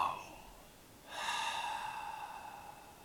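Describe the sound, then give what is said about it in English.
A deep breath drawn in, a long, soft, airy inhale lasting about two seconds and rising in strength at the start, heard alone. “let's just take a deep breath”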